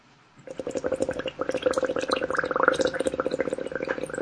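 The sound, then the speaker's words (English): Bubbling from someone blowing through a straw into a drink: a rapid, continuous gurgle of many small bubbles that begins after a brief quiet moment and keeps churning at a steady level. “What are you pouring a drink? Yeah, you could say that. You're blowing a straw in the drink.”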